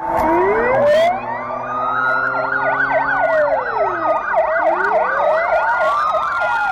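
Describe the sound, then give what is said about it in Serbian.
A police car siren sounds during a city security patrol in Warsaw. It starts with slow rising and falling wails, switches to a rapid yelping warble, then returns to slow wails, loud and continuous throughout. “Patrole policije sa rotacionim svetlima obilazile su grad u četvrtak tokom čitavog popodneva i večeri.”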